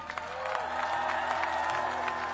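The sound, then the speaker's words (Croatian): Audience applause for small children in the audience, a moderate wash of clapping mixed with crowd noise and a few brief cheers over a steady tonal background. “Veliki aplauz za malu decu u publici.”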